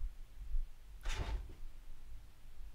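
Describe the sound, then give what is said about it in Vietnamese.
Banging on a door, heard as one short, dull thud with a brief rough tail. It stands alone over a low, steady background hum. “Gì đây, đứa nào đập cửa đây?”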